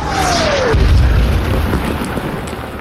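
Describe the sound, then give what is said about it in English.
Naval gunfire from a destroyer shelling German bunkers, trenches and pillboxes around a coastal gun battery: a descending whistle ends in a deep, heavy boom, followed by a loud, sustained low rumble. “The USS Satterley fired a few well-aimed rounds on the German bunkers, trenches and pillboxes all around the battery.”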